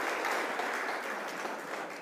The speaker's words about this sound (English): So I think a round of applause for that.